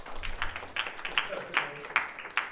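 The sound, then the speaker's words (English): Audience clapping after a lecture, a sparse, quiet patter of separate claps at a fairly even pace rather than a dense roar. “Yeah, give a round of applause to”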